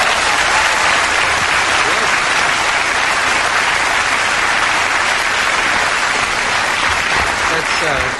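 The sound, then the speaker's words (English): An audience applauds at a live show, steady dense clapping that holds at the same loud level throughout, with voices heard over it. “You do that just to get applause?”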